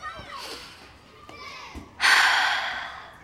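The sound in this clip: A slow breath drawn in after holding it, voiced by a child character: soft, airy breathing that ends in a louder, noisy rush of breath.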